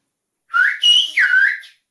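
A single word in a whistled language, meaning goodbye, is whistled alone as three connected bright, loud tones, with the middle one highest, lasting just over a second.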